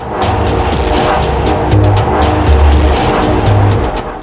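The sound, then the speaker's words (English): A stretch limousine pulling up, heard as a continuous, fairly loud engine rumble and road noise that holds steady throughout with no clear break or change. “stretch limousine pulls up.”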